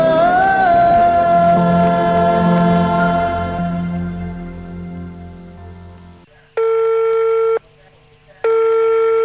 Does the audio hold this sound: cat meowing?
no

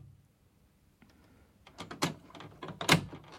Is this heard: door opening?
yes

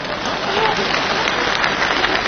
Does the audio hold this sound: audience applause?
yes

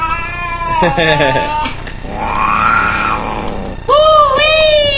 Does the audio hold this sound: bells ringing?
no

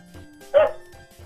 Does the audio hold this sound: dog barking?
yes

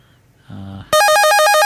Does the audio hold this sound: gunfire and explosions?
no

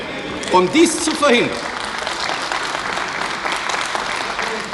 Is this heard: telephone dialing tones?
no

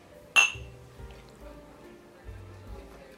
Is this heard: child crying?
no

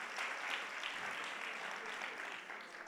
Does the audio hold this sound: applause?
yes

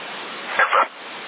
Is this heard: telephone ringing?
no

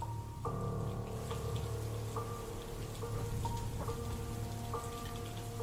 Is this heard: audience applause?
no

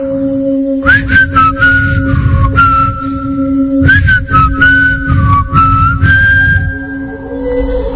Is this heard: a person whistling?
yes

